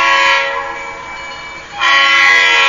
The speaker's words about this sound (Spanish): Se lo llevó el tren.